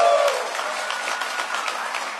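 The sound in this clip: An audience claps steadily: a dense, continuous patter of many hands, moderately loud and fairly even for a couple of seconds, with no voices on top.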